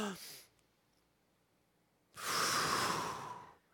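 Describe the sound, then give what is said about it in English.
A group takes a deep breath together: a short breath in, a pause, then a long, loud, breathy exhale. “I'm going to actually invite us all just to take a deep breath together. All right, you ready? We're gonna go breathe in and breathe out.”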